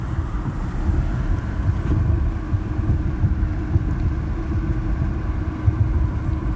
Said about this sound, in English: I'm obviously driving through rural America at the moment.